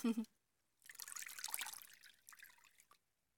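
Water trickles and drips softly while a person's body is washed off, a faint continuous splashing lasting about two seconds after a brief low sound at the start.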